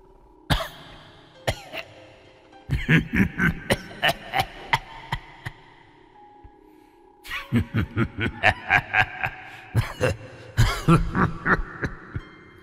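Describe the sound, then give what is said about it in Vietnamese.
An elderly man coughs inside a house: harsh, dry coughs come in several fits of many quick bursts each, loud and uneven, with short pauses between the fits and no speech. “Bên trong nhà vang lên tiếng ho khổ khổ khổ khổ.”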